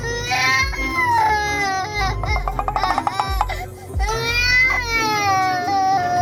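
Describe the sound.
A young child cries during a family road trip on arrival in Quảng Ngãi, with loud, high, sustained wails that break into a stuttering run of sobs midway before rising into long cries again.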